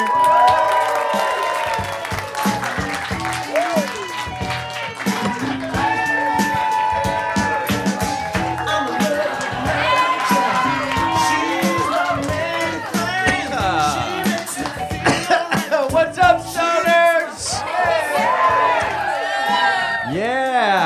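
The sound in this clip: A studio audience applauds and cheers as the host of a stage show is introduced, with dense, steady clapping, scattered whoops and shouts, and crowd voices that run unbroken for about twenty seconds.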